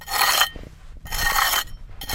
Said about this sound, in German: Mit einer Kelle schabt er die Wände ab und legt Millimeter für Millimeter die Überreste eines Gebäudes frei.